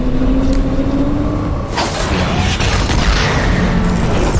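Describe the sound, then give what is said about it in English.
A grenade explosion in a video game: a sudden broad boom about two seconds in that spreads into a rough, rumbling wash over steady in-game background noise. “Throw grenade is F, apparently.”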